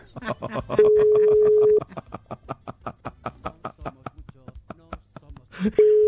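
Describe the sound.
An unanswered WhatsApp call rings back with a steady tone that lasts about a second, and a second tone starts at the very end, both under continuous talking.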